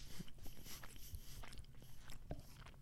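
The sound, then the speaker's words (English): A person chews food while eating, making faint, close, moist crunching and biting sounds in a steady uneven stream, with no talk over them. “I'm sorry for eating, bro. I'm, like, staying quiet”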